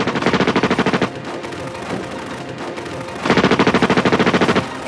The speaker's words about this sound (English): Officers find themselves against a fully automatic modified AK-47 with armored piercing bullets. Two bank robbers wearing body armor unleash a barrage of ammunition